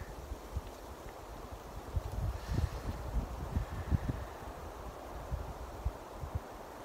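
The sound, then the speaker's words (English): Wind buffets a microphone outdoors on a pine-needle-covered forest slope. Low, rumbling gusts swell and drop unevenly, with a soft hiss of rustling over the steady roar and no voices. “If you're listening to this on my podcast, I'm sorry for the poor audio. You will probably hear more wind than me.”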